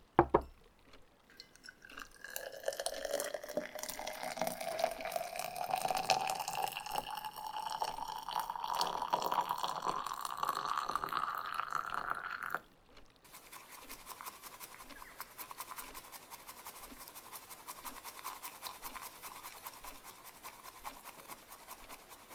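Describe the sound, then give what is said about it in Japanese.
Water pours into a vessel while the Japanese tea is prepared, its hollow tone rising steadily in pitch for about ten seconds, then brisk, even whisking of the tea takes over as a dense rhythmic scratching. “なら、早速、このお茶、立てていきますね。”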